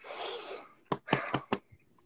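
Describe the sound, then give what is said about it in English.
Breathless wheezing from a person short of breath: a long raspy rush of air, then a few short, sharp gasping breaths and a faint last one. “Hold on. I got short breath. Hold on.”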